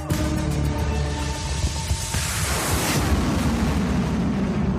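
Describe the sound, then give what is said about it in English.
Rockets launching near a war zone give off a heavy sustained roar: a droning tone first hangs over the rumble, then gives way to a broad rushing noise that stays loud to the end. “Ah, the sound of the rockets launching.”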